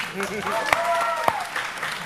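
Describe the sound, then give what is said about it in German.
Audience applause: steady clapping mixed with a voice talking, with a couple of sharper, louder claps standing out. “Ein Applaus für Leute, die das Internet nutzen können.”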